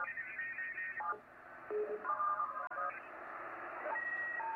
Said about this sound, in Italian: Questo è un protocollo che si chiama PSK31.